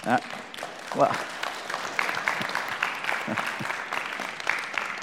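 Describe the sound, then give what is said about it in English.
A church audience claps, producing a dense, steady patter of many hands that runs the whole time at a moderate level, with voices faintly mixed in. “And so let me just say this morning, if you want to clap this morning, I don't mind, all right?”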